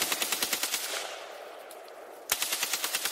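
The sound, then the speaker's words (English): AK-47 rifle firing on full automatic: a rapid burst of sharp, evenly spaced loud reports, a decaying tail of about a second, then a second rapid burst. “Maybe I'll pull up a clip and throw it in here in post. But it, like one very distinct thing about the AK-47 is the sound that it makes when it fires.”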